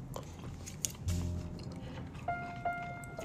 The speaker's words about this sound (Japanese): ね、聞きますね卵いただきます